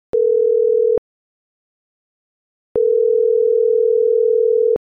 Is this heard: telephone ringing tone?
yes